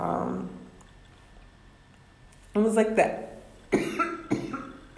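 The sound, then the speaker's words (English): A person with a tickle in the throat coughs several times in harsh, raspy bursts after a quieter opening, the coughs coming in uneven clusters. “I can't imagine how annoying it is for y'all to listen to me cough. But you have to know that it's annoying for me to be coughing.”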